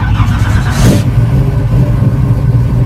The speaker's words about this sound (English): bright red 1968 Pontiac Firebird starting up here at a shopping center parking lot in Burtonsville